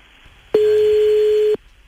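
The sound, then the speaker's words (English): A telephone ringback tone as an outgoing call rings on the line: one steady, loud electronic burst of about a second, heard alone with quiet before and after. “The phone should ring any time now.”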